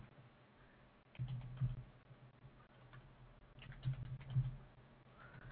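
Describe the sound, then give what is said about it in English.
Typing on a computer keyboard while entering a question into an online form: faint clicking in two short bursts of keystrokes, with quieter gaps between them. “I guess if I typed it right.”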